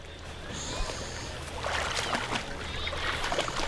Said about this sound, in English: What you hear is the sound of kids and adults having fun at a pool, but for many parents, this very sound of splashing and swimmers taking a plunge into the deep end can be very scary.